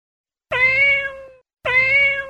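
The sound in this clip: A cat gives two clear, tonal meows of similar length, each under a second, separated by a short pause, with the pitch settling slightly lower at the end of each.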